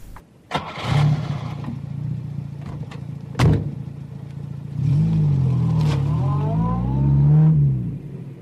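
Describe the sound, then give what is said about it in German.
A red Mustang car's engine starts and runs with a steady low rumble. Sharper bursts come early on, and the engine swells with revving in the later part. “Okay, ich fahre unsere geile Karre, den roten Mustang. Dann sind wir gleich dort.”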